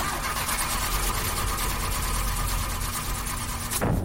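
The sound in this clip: A car engine cranks and turns over after repair work, the car overdue for an oil change, giving a steady, loud, rough mechanical drone that holds for nearly four seconds before cutting off abruptly near the end.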